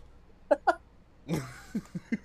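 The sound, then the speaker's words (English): A snort: a couple of short throaty bursts, then a longer breathy, noisy nasal blast, followed by a few short, soft voiced bursts. “Sorry. No. I didn't mean to snort.”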